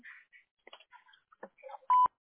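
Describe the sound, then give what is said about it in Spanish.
A single loud, short steady beep tone from a voicemail system signals the start of recording near the end, after a stretch of faint, scattered sounds. “Favor de grabar su mensaje después del tono.”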